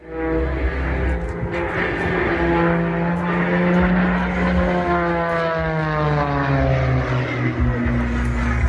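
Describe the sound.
Propeller aircraft engines drone loud and continuously at an air show in Australia. Strong harmonic tones slowly drop in pitch toward the end as the plane passes.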